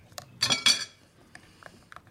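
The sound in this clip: A utensil scrapes and clinks against a bowl while smoothing a dough mixture, with two loud bursts of scraping followed by a few lighter, scattered taps.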